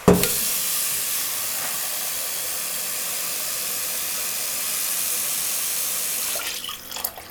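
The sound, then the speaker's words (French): Water pours into a cooking pot of food seasoned with salt and ras el hanout. A steady, loud, hissing splash runs for about six seconds and then stops, with no talking. “Maintenant, on va mettre l'eau.”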